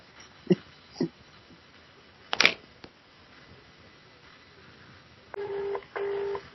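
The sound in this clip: Telephone tones sound while a customer service number is dialed: two sustained, steady electronic beeps come near the end. Before them are a few faint scattered knocks and one brief, louder rustling burst.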